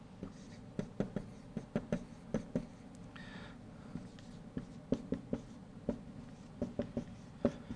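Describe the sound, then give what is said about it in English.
A pen scratching as two circles are drawn by hand, faint strokes marked by many small taps and clicks in an uneven rhythm over a low background hum. “I'm going to write two very poor circles because I can't draw for anything.”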